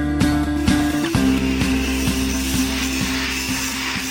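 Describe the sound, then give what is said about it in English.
Industrial pipe links being welded together for a pipeline expansion, heard as a steady mechanical hum with a rhythmic series of sharp ticking clanks about every half second, loud and without talk. “That's the sound of links of industrial pipe being welded together.”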